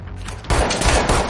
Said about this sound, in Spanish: Mata a dos que se acercan. Dispara a uno más y lo remata en el suelo.